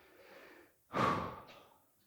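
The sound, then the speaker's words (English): A deep breath and exhale from a church audience during a sermon: soft, faint breathing gives way to one loud, breathy rush of air that swells quickly and then fades out slowly. “Everybody just take a deep breath and let it out.”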